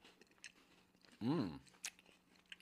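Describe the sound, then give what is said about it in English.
A single crunchy bite into a long white chocolate Twix bar with crispy wafer, one short, sharp crunch against a quiet background. “We just split a very long white Twix bar.”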